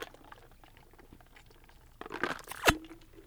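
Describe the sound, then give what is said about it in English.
A quick gulp of a drink follows a couple of seconds of faint background noise: a soft, wet burst of liquid sounds ending in one sharp, moist click of a swallow. “Let me get a glug real quick.”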